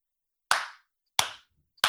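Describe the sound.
A person claps hands three times, evenly spaced about two-thirds of a second apart. Each clap is sharp and crisp, with a quick decay into silence, and there are no voices.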